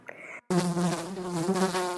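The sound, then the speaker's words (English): A monster fly buzzes with a loud, steady, low-pitched drone that starts abruptly after a brief faint sound and continues without a break. “"Buzz, buzz, buzz," went the monster fly.”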